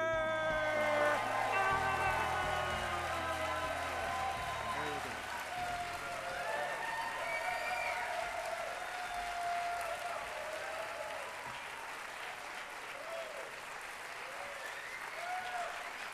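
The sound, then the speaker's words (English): A large audience gives sustained applause to welcome Dr. Michael Greger onto the stage, with dense clapping and high vocal whoops and cheers running strongly throughout and easing slightly toward the end. “Why don't we give a big warm welcome to Dr. Michael Greger!”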